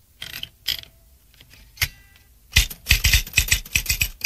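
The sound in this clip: Keystrokes on an office typewriter: a few scattered, separate clacks, then a quick steady run of sharp mechanical strikes with a faint metallic ring, loud and alone without voices.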